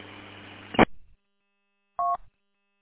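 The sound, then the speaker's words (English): A short two-tone electronic roger beep from a new amateur radio rig sounds once at the end of a transmission, after a burst of radio static cuts off and a brief silence. “can you turn off that Roger beep? I didn't know I had one. It's a new rig.”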